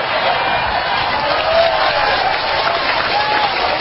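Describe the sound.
Audience applause fills the whole stretch with steady, dense clapping from a large crowd, loud and even throughout, with no break or single voice standing out.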